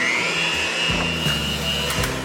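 Electric mixer whirring through a sweet mixture of powdered sugar, a pinch of salt, vanilla extract and cinnamon: a loud, steady motor whine with a high tone, with a few low knocks from the beaters against the bowl.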